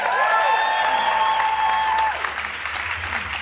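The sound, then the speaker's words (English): A live audience at a film festival event applauds to welcome two guests. The clapping is dense and steady, strongest over the first two seconds and then slightly softer to the end. “Everybody, welcome Alec Baldwin and Spike Lee.”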